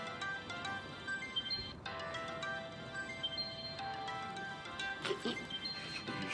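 A phone ringtone goes unanswered, faint and repeating in regular cycles with short pauses between rings.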